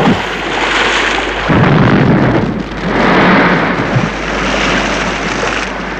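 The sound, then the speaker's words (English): Bomb explosion: a loud, continuous roaring rumble with no quiet gaps, swelling twice in strength before holding steady to the end, with no voices. “this is the reaction when the bomb explodes and they're saved from what would have been certain death.”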